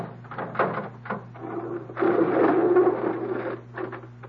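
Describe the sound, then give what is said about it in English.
Bolts slide back and a crate is opened, a series of short scraping clacks followed by a longer rasping, creaking scrape, all over a steady low hum. “Just let me slip these bolts. Open it.”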